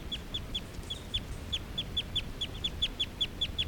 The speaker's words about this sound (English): This is a call of a male who's right next to bird 378. On 378's cage.